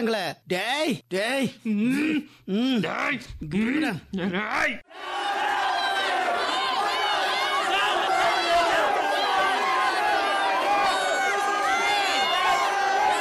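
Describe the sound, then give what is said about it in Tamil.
Shouting and commotion of a brawling crowd fighting over a piece of chicken at a meal. A few sharp bursts of yelling voices come first, then a continuous clamor of many people shouting over each other. “ஐயோ என்றாத்தமா இருக்குதே, என்னடா கூச்சல் குழப்பமா இருக்குதே, என்றா இது என்றா இது”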